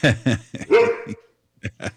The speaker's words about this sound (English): It's hard to get them to stop once they get started. Right. It's good that puppy's screaming.